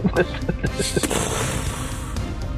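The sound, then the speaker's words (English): Laser gun shots in a video game: a few sharp, rapid zapping blasts in the first second, then a sustained noisy wash of game sound. “Well, I'll just shoot him then. Taste laser, dirtbag.”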